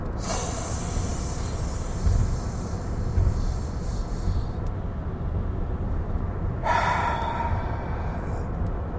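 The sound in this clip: A deep breath drawn in and held during a guided breath-hold exercise, with a breathy rush at the start and another burst late on, over a steady hissing background.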